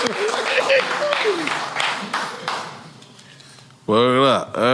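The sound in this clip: An audience cheers and applauds an honoree. A loud burst of clapping and shouting gradually thins out over a few seconds, and then a man starts talking.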